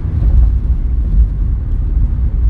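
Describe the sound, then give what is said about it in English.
Car interior road noise while driving: a steady, loud, low rumble that holds evenly throughout without any talk. “But anyways, I'm just driving along. I figured I'd do my podcast driving again.”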